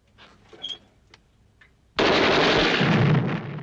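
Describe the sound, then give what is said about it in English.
Explosions from a film scene with fireballs and smoke on sand, where soft, scattered sounds give way to a sudden, heavy blast. The blast turns into a loud, sustained roaring rumble that lingers to the end. “As another series of fireballs and smoke ensues, the men below scatter, seeing the explosions advancing towards them.”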